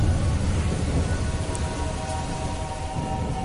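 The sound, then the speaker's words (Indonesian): Rain falling at night, a steady, even hiss with a soft low rumble underneath, continuing unbroken throughout with no voices. “Mari kita nikmati malam hari ini di tengah hujan yang ada,”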